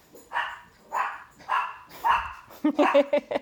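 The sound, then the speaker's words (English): Several dogs barking in a quick burst of sharp, loud barks near the end, preceded by longer, lower vocal sounds. “You can tell how true this is. You can hear my dogs barking.”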